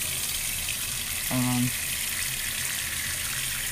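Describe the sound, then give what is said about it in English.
Water runs steadily from a tap while something is washed, a continuous hissing rush with a brief, low tonal hum partway through. “Oh, let me wash it.”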